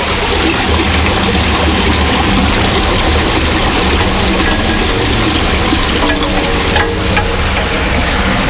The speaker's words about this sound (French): La raison pour laquelle on mesure des débits d'eau ici dans cet égout